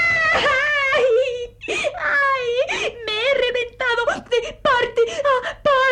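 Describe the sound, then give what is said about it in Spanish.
A voice actor imitates a little bean crying in a children's radio play, with high, wavering sobs and whimpering wails that rise and fall in several broken bursts, alone without other sounds. “Ah, vaya, vaya, ¿qué es esto? Un frijolito que llora. ¿Qué te sucede, pequeño?”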